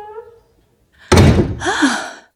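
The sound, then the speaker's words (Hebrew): A cabin door slammed shut: a single loud, heavy bang that follows a brief voice and trails into a short rattling rumble. “נכנס במהירות לבקתה וטרק את הדלת.”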